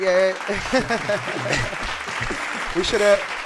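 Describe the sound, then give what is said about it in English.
A few people clap by hand, loose and irregular, while their overlapping voices talk loudly over the claps throughout. “big props, get the claps out.”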